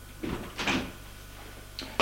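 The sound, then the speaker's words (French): Knocking on a door, a few soft, unevenly spaced raps that stand out faintly against a quiet background, with no voices. “On frappe à la porte. Entrez !”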